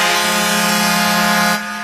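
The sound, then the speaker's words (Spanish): Air horn sound effect played in a DJ mix: one loud, steady blast with a bright, buzzing tone that holds for about a second and a half, then drops away abruptly. “esa es la otra bocina, oye esa.”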